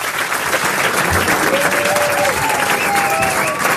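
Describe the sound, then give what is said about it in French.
An audience gives an ovation at a music show as a singer is welcomed, a continuous, loud wash of clapping hands sustained evenly from start to finish. “Je voudrais une ovation s'il vous plaît”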